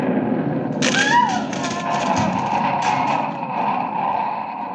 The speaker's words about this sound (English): An explosion inside that room. Dynamite or nitroglycerin.